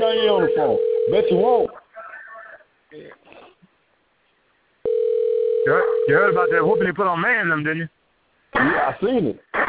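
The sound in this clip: A steady telephone dial tone plays in two stretches, each a flat tone of about two seconds. Voices talk over it and in the pauses between.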